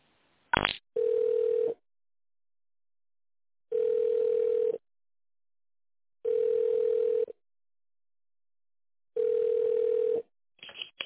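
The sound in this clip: Telephone ringing tone as an operator connects a call: after a brief click, four steady, mid-pitched tones of about one second each repeat at an even pace with long silent gaps, ending in a short burst of line noise.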